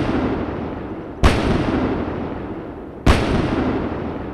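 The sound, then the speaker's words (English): Two heavy booms from a battery of six 155mm howitzers dug into a forest clearing at Fort Bragg. Each sharp, loud report is followed by a long rumbling decay over steady background noise. “That's an artillery battery, a half dozen 155mm howitzers dug into a clearing in the forest.”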